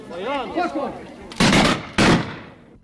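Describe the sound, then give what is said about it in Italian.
A militia firing squad of about ten rifles fires a volley with one misfire, heard as two loud sharp blasts about half a second apart. A man speaks just before the shots. “Eccola la scarica di una decina di fucili. Con il colpo cilecca si capisce.”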